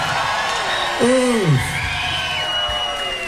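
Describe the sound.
Crowd cheering at a live band concert, with one loud whoop that rises and then falls in pitch above a steady, noisy crowd background.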